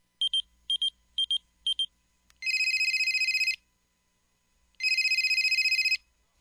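A telephone ringing on an unanswered call. Four short, high beeps come first, followed by two long trilling rings with a pause between them, all loud against near silence.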